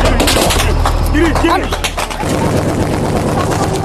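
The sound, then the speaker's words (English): Gunfire rattles as US 101st Airborne Division soldiers fight their way out of an ambush near the Pakistani border in eastern Afghanistan, with many dense, sharp cracks in rapid bursts and voices mixed in, followed by a steady rumble. “Here, soldiers from the 101st Airborne Division are fighting their way out of an ambush,”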